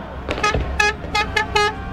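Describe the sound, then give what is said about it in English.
Car horns honk through a street celebration in Madrid after Spain's World Cup win, many short blaring toots in quick succession, some overlapping, loud and alone. “A cacophony of car horns and firecrackers on the streets of Madrid,”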